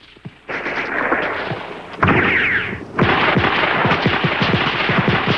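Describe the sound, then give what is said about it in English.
Rifle gunfire as soldiers reload and pepper shrouded woods with cartridges: many sharp, loud cracks in rapid bursts, a short lull early on, then denser, heavier volleys toward the end. “At the boulder, the men reload with cartridges from Kip's belt, then pepper the shrouded woods.”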